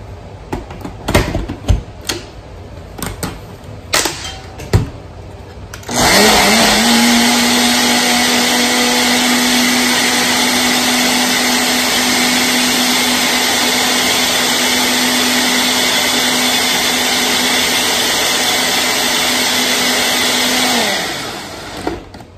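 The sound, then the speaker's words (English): A blender whirs through a drink sweetened with maple syrup. A few sharp clicks and knocks as the lid goes on lead into a loud, steady, even-pitched motor roar lasting about fifteen seconds before it winds down and stops. “The maple syrup adds sweetness, so you could make this optional. And then I'm just gonna put the lid on and blend it.”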